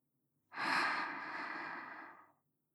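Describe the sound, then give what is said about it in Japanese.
A single slow, steady inhalation drawn in on cue for nearly two seconds. The airy breath swells quickly, then holds smooth and even before fading out, with silence on either side. “今度はゆっくり息を吸って、”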